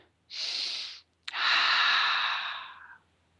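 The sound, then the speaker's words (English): Two deep breaths, a shorter airy breath followed by a longer, louder drawn-out one, both breathy and unvoiced, separated by a brief click. “Are you ready? Take a couple of deep breaths.”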